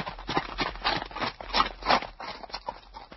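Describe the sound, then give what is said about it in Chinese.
Horse hooves clip-clop in a steady, even rhythm, with many hoofbeats at a moderate level. “我听见后面有马蹄声”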